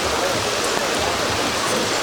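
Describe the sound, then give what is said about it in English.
Heavy rain pouring down outside early in the morning, heard while sheltering under an auto body shop's facade: a steady, dense hiss of falling water that holds even throughout, with no distinct separate drops. “I should probably try and get some audio of the rain coming down here”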